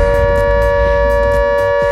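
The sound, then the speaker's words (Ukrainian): An air raid siren in Ukraine holds a loud, steady, unbroken tone throughout, sounding alone with no voices over it. “Увага! Увага! Повітряна тривога триває. Залишайтеся в укриттях.”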